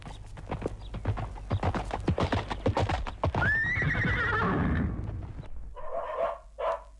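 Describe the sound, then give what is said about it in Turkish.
Horse hooves clip-clop in a steady, brisk rhythm of sharp strikes. A loud whinny rises and then falls, followed by a few more scattered knocks and snorts. “Bir at hazırlasınlar bana acele”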